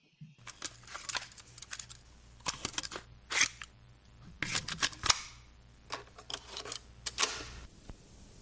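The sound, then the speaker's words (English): A cassette tape deck and plastic tape boxes being handled give many sharp clicks and clacks in irregular clusters, some quick and rattling, others single snaps, with quiet pauses between groups. “the tape deck and tape boxes, because cassette tapes, at least for me, I used to record off the radio, and I used to make mixtapes”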